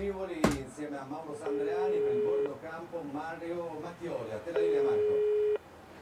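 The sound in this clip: A telephone call rings through on a speakerphone, with two long, steady ringback tones a few seconds apart. Voices talk between and around the tones, and a sharp click sounds near the start.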